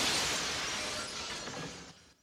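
A plate glass window shatters: a fairly faint burst of bright, crashing noise is already sounding at the start and gradually thins out, then stops abruptly near the end.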